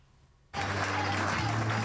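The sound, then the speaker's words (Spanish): Cheers and applause greet a politician at Génova, bursting in suddenly after half a second of near silence and holding as a loud, dense, steady roar of clapping and shouting. “Entre vítores y aplausos. Así es como Génova ha recibido a Moreno tras ganar unas elecciones sin una mayoría para gobernar”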